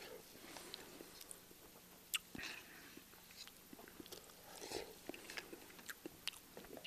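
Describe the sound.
Someone is eating crackers, with quiet, irregular crunchy bites and chewing clicks scattered throughout. One sharper crunch stands out early on.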